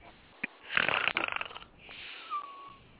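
A sleeping man snores loudly with a rattling, fluttering rasp, then draws a softer breath that carries a thin whistling tone.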